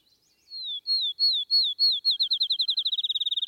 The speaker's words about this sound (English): In the high pastures, the field sparrow sings his breezy vesper